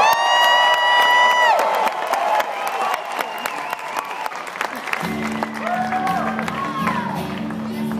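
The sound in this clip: Audience cheering, whoops and applause as a singer is welcomed on stage: a loud, dense crowd roar that holds steady, with instrumental music starting partway through under the continuing cheers.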